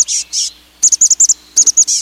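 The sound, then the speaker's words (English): High, thin calls of a chestnut-backed chickadee: a pair of buzzy notes, a pause, then two quick runs of short, sharp chirps, all loud and alone. “you may find its cousin, the chestnut-backed chickadee, tagging along.”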